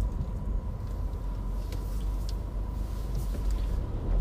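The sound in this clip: A car drives on after a traffic jam has cleared, giving a steady, fairly loud low engine and road rumble that stays even throughout, with no talk.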